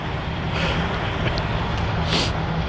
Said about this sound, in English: Okay, that should be the last of the trucks. At least the last of the big trucks.